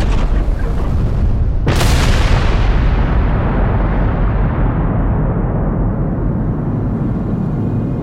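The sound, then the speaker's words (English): A huge bomb explodes: heavy rumbling gives way to a single sharp, very loud blast, followed by a long, deep roaring rumble that slowly fades over several seconds. “My God, you weren't lying. That's too big a bomb.”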